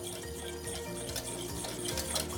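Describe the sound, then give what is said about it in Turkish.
Sauce being stirred right after a ladle of boiling soup is poured in, a steady, soft, wet sloshing and bubbling noise with no pauses. “Şimdi buradaki kaynayan çorbamdan şöyle bir kepçe buna koydum. Tekrar karıştırdım.”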